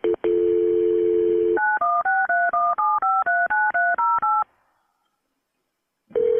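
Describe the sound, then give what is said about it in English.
Telephone dial tone, then a quick, even run of many touch-tone keypad beeps as an emergency call is transferred to state police. A brief silence follows, and another steady tone begins. “Jones Beach, and that's why you're about to hear them transfer her to the state police. You're at Jones Beach? Bye, Jones Beach. All right, let me connect you to state police.”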